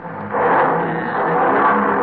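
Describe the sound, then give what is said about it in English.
A car engine revs after repairs on an old car paid off in 1939, running smoothly. The steady, broad roar swells early and holds at a loud, even level to the end. “rev it up again, Doc. I want to hear it.”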